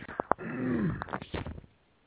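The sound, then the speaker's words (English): Throat clearing by someone troubled by pollen: a few short rasping bursts, then a longer gravelly, rumbling clear, followed by a few more rough catches that fade into near silence, with no talk. “And if I clear my throat a lot tonight, pardon me, there is a lot of pollen in the air.”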